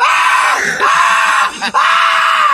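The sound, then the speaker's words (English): A man screams at the top of his lungs: a loud, raw, sustained scream broken by two brief catches for breath, then carrying on strongly to the end. “The whole thing when I lost my control and screamed at the top of my lungs.”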